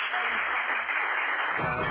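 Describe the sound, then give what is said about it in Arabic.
An audience applauding a contestant on a quiz show, a dense, steady wash of clapping that goes on throughout. “انت بقيت مشهور اهو يا عم، والجمهور بيسقف لك.”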